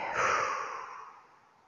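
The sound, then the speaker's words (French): A deep breath drawn in and blown out during a guided relaxation exercise, heard as a soft, airy rush that swells briefly and then fades steadily away. “Vous allez prendre une grande inspiration et souffler”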